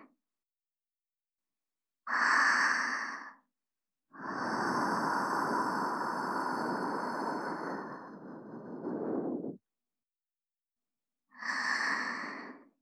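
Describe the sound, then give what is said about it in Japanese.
Soft, quiet breath blowing in three breathy puffs: a short exhale, a long sustained one lasting about five seconds, then another short puff, each separated by silence. “こちらもふうふうします。”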